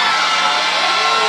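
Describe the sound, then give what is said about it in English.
A church audience hollers and screams in a loud, dense roar of mixed voices that stays continuous and even for just over a second. “I wish somebody would just holler and scream right now.”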